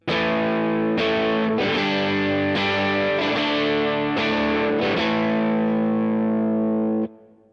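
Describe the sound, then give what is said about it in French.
Distorted amplified instrument tone played through an amp capture with a small reverb added, a series of loud sustained chords struck one after another, each ringing into the next, before a sudden cutoff near the end. “Et si j'ajoute une petite reverb pour justement rajouter un peu de vie à cette empreinte,”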